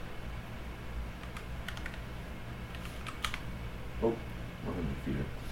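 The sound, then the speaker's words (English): Someone types a search for 100 feet of lights on a computer keyboard, a loose run of light, quick key clicks at a low level, with a brief voice near the end. “Search up 100 feet. Type in 100 feet at the top.”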